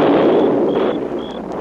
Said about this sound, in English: While you were sleeping, we took some blasting powder and set a charge under those rocks. You blocked up the pass into the ravine. Now we're blasting it open again.